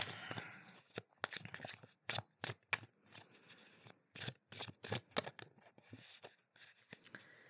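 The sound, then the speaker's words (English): Playing cards are handled and a card is drawn from a deck: many crisp, papery flicks and snaps in an irregular rhythm, quiet and close, with soft rustling between them. “Let's draw another card.”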